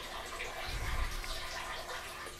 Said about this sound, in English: Sounds like you're running the sink.